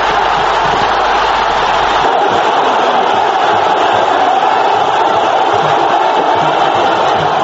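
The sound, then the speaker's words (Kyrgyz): Thousands of Morsi supporters gathered in Cairo's Tahrir Square cheer and applaud election results, a loud, continuous crowd roar with mingled shouting voices and no breaks. “Каирдеги айтылуу тахрир аянтына чогулган Мурсинин миңдеген тарапкери кабарды кол чабуулар салют атуу менен кабыл алышты.”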